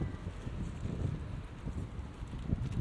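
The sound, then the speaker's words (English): Outdoor wind blows across a microphone, giving a low, muffled rumble with uneven buffeting gusts throughout. It is fairly faint and has no talk over it. “Oh, wind. So, trying to avoid this breeze.”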